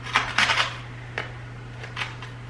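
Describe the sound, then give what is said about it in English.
Short metallic clinks and scrapes as roasted sweet potatoes are flipped on a hot sheet pan, a few brief bursts spread across the moment, fairly soft over a faint steady low hum. “We're just gonna give these a quick flip.”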